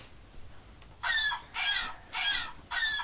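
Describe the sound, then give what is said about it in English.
Electronic hen sound from a toy sound button: four bright, squawky bursts at a steady rhythm over a faint background hiss. “What's that button? A hen. A hen?”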